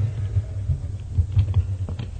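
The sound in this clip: A sentence being typed on a computer keyboard in a text editor: many rapid, irregular keystrokes clatter at a moderate level throughout, with no talking.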